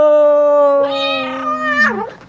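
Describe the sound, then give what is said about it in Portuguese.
A cat gives one long, loud, drawn-out meow that holds a steady pitch and then slides quickly downward at the end, heard alone with no talking. “Eita, gatinho danado. Cadê o leite do gatinho,”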